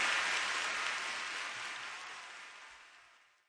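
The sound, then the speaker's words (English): Hands clapping in a dense, steady burst of applause-like noise that stays faint and gradually fades out over a few seconds. “Come on, clap your hands.”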